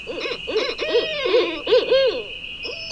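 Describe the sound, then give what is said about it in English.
An owl calls at night in a quick series of warbling, chattering hoots, each a pulsed burst rising and falling in pitch. The calls sit over a thin steady high whine, fairly loud, with no talk. “Believe it or not, that's the sound of an owl.”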